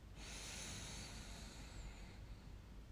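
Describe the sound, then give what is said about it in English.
Slow breathing in through the nose: one long, soft, hissing inhale lasting about two seconds, quiet and alone, then easing off. “try to match my breath. In through the nose,”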